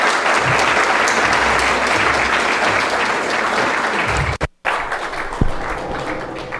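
Sustained audience applause welcoming Senator Michael Bennett at a CSIS event: dense, steady clapping from many hands with one brief break before it resumes and gradually thins toward the end.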